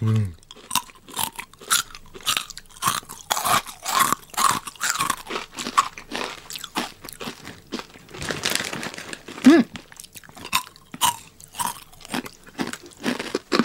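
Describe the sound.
Crunching and chewing of round arare rice crackers, with many sharp, dry bites and crackles repeating in an irregular rhythm, broken by a brief voice.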